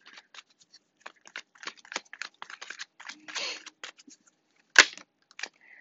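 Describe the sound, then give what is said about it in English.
Tarot cards being handled as one is drawn from the deck: many short, crisp clicks and taps, a brief sliding rustle midway, then a sharper snap near the end. “Next card out, we have the Eight of Pentacles.”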